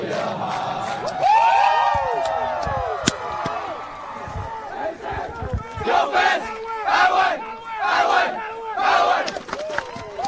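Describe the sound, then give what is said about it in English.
Football team cheering and singing its fight song after a 36-6 win: loud massed voices shouting and singing together without a break through the whole clip. “And that's the sound of a joyful Blue Demon football team.”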